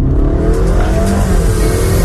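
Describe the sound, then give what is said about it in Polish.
Engine and road roar from a Honda HR-V hybrid compact SUV being driven, loud and continuous, with the engine note climbing slightly as it accelerates; no voices. “Hybrydowa, oszczędna, dostarczająca wrażenia z jazdy. Taka jest Honda HR-V.”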